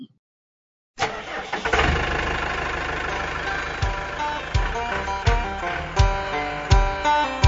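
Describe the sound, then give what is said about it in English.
A gasoline engine cranks and struggles to start, with a steady mechanical whirr broken by repeated low thumping pulses in a regular rhythm. It never settles into a clean run. “You have not lived long enough if you never encountered a gasoline engine that does not want to run.”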